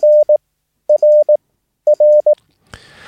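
Morse code letter R sent in CW, a clean mid-pitched tone keyed short-long-short, repeated three times, then a brief burst of noise at the end.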